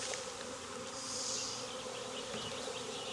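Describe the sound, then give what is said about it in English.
Bees buzz inside a hive box during an inspection, forming a dense, continuous drone that stays steady and fairly loud throughout, with no voices. “There's still some bees in here, but not many.”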